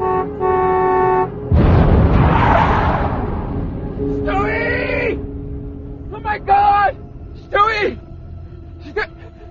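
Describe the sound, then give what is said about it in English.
A car horn blares in one steady, held tone, followed by a loud rush of noise and a few urgent shouted calls. “I started to blow my horn, raced towards him.”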